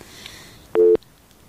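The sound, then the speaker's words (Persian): A busy tone follows a listener's phone call being cut off: one short, steady electronic beep sounds alone over faint background hiss. “بله فکر کنم که تماس ما قطع شد.”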